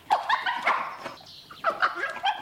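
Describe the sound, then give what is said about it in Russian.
A dog barks excitedly in a quick run of many sharp, high barks and yelps, some with a whining edge, with a brief pause midway before the barking resumes. “Когда Топ звал нас к Питеру Сайресу, он лаял точно так же.”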